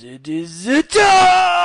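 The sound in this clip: A man yells loudly into a microphone in a drawn-out, voiced shout whose pitch climbs steadily. It breaks off briefly, then a second loud, sustained cry follows.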